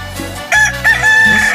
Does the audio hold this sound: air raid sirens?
no